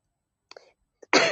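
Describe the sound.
A person clearing their throat: two faint short throat sounds, then one loud, rasping clear at the end.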